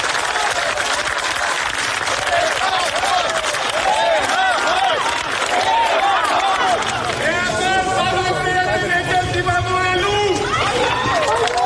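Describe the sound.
Applause and shouting from a crowd gathered outside an arrivals hall to greet a church leader: dense, steady clapping mixed with raised voices calling out and overlapping chatter, loud throughout.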